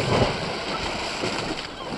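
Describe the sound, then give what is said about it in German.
Loud splash as someone jumps from a ship into the water, with a big wave washing over the ship: a steady, full rush of churning water that fills the whole two seconds without voices. “Eine riesige Welle schwappte über das Schiff, als Benjamin ins Wasser sprang.”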